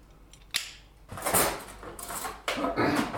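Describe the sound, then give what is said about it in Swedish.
A clean spoon stirs in a dish, giving a sharp clink followed by two bursts of scraping and rattling against the sides. No one speaks. “En ren sked som jag rör om.”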